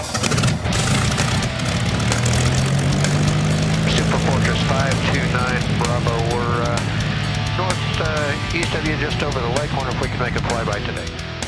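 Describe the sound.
A warbird propeller aircraft engine starting up, a loud, steady rumbling drone that holds from start to end, with a voice speaking over it.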